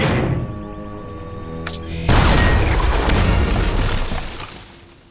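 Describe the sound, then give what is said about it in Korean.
A cartoon cannon contraption fires: about two seconds of tonal whirring sounds, then one sudden loud boom followed by a broad rushing blast that gradually fades away. “다람쥐 대포 2000이 나가신다!”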